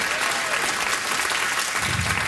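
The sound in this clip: An audience applauds a speaker at a talk with dense, even clapping that holds steady through the short burst.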